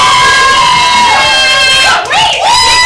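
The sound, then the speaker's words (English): Live audience in Chicago cheering, whooping and making noise at a monthly party event: a loud, sustained roar of crowd voices with high shouts running through it and no pause. “Come on, give it up. Make some noise.”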